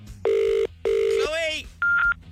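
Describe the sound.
Ringing on an outgoing phone call to a radio listener: two steady buzzing ring tones separated by a short gap, then a brief warbling sound and a single higher, cleaner beep.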